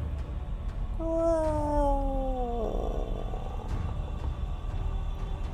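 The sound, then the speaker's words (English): A bestial, bird-like roar of a huge winged creature at night, a single drawn-out harmonic call sliding downward in pitch over a constant rumbling background. “From atop of it, tremendous wings rise, stretching into the night. A roar, bestial and avian, echoes across all of the Isle of Solstice.”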